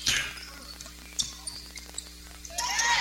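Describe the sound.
A basketball dribbled on the court during a girls' basketball game, a few sharp, separate bounces over a steady bed of gym and crowd noise.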